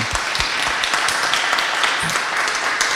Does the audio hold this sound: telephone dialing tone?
no